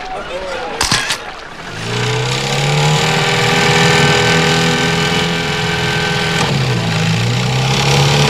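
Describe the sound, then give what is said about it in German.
A motor engine is started and left running: a short sharp click comes first, then the engine catches and settles into a steady, loud mid-pitched hum with a brief dip in pitch near the end. “wirf den Motor an. Los!”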